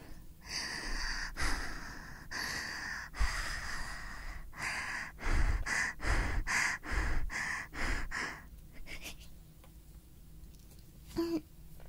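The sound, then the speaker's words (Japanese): A person imitates panting and being out of breath close to a binaural ASMR microphone. Many loud, breathy puffs come first in longer bursts, then in a quicker, even rhythm, before the sound trails off into near quiet. “息切れの真似すると本当に息切れしてる。息切れする。”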